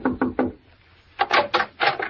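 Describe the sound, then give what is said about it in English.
Knuckles rap on the wooden door of a roadside cabin: three evenly spaced knocks, a short pause, then a quicker run of several more. The knocks are firm and hollow, with no voices. “I pulled up at the Shady Glade and knocked at the door of cabin number 4”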